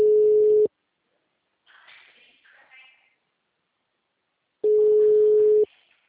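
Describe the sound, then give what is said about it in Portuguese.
A telephone line tone while a call to a client is being placed: two long, steady mid-pitched beeps separated by a pause of several seconds, with faint muffled sounds in the gap. “eu tô ligando pra cliente da Ianca”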